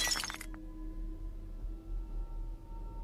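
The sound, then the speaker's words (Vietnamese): A ceramic bowl drops and shatters while dishes are being washed by a well in a yard. One brief, bright crash at the very start gives way to a faint, steady low hum. “Bất chợt bà lỡ tay làm rơi cái bát xuống vỡ đánh xoảng một cái.”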